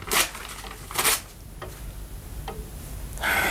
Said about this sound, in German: Ich darf es also zerreißen. Ja. Ich bitte Sie darum.